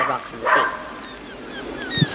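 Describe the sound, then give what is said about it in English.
A neighbour's dog next door gives a few short yips and barks in a garden, mixed with someone talking. “next door's dog”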